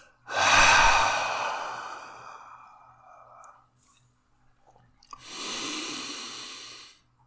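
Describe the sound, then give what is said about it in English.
A slow, audible exhale released after a held breath during a guided breathing exercise: a long, airy whoosh that gradually fades, then after a pause a second, shorter breath. “And hold it, hold it, hold it, hold it, and exhale.”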